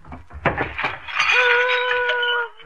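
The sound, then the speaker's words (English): A big cut glass punch bowl breaks: a few sharp crashes and clinks are followed by a sustained, bright ringing tone that fades out. “What was that? I don't know, unless it was that big cut glass punch bowl that lady checked about a year ago.”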